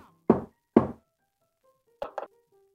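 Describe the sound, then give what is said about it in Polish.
Knocking on a door marked number two: two heavy, hollow thuds, a pause, then two lighter, quicker knocks, all alone in a quiet space. “Ostatni puka do dwójki.”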